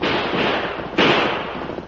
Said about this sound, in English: The next time my boys shoot, they'll aim right at you instead of over your heads.